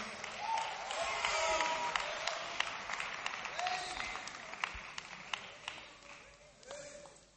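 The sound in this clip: Applause from the audience at a religious testimony gathering: brisk clapping with voices calling out over it, loudest early and gradually thinning toward the end.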